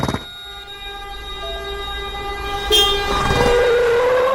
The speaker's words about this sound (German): Lass uns die Bahn nehmen, schnell!